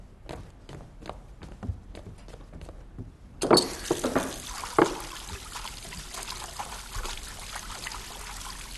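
Water runs from a tap while hands are washed. A steady, hissing trickle starts partway through and continues to the end, with a few louder splashes near its start and light taps before the flow begins.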